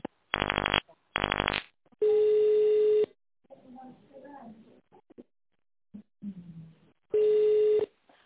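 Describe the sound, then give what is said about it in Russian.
Telephone keypad and line tones on a call to a company's automated line: two short buzzy tone bursts, then a steady tone lasting about a second, a stretch of voice, and a final held tone. “Наберите, пожалуйста, номер.”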